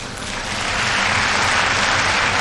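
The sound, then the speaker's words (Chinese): An arena crowd applauds and cheers a gymnastics balance beam back handspring dismount, a loud, sustained roar of clapping that swells early and then holds steady. “后手翻横木落啊，同样是引得了全场的喝彩。”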